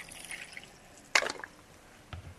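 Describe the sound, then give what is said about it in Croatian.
Water poured into a glass: a short, bright splashing burst in the middle, quiet dripping touches before it, and a softer low plop near the end. “Sipat ćemo vodu u čašu,”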